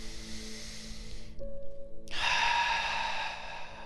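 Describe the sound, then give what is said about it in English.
Deep breaths in and out during a guided relaxation exercise: a soft, airy inhale, a short silent pause, then a fuller, rushing exhale, all fairly faint. “We'll take a couple deep breaths together.”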